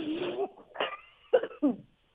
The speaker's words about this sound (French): Pardon, j'ai une petite toux.